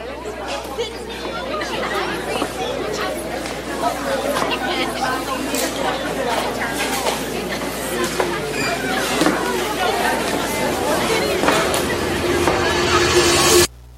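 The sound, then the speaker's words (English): Loud, overlapping chatter of many college students fills the air, a dense steady babble of voices that swells slightly before cutting off abruptly at the end. “College can get loud, fast.”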